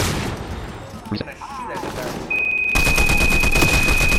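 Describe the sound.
Video game gunfire as a player shoots at a guard. A dense volley of many rapid shots fills the second half over a sustained high-pitched whine, after rougher, noisier game sounds.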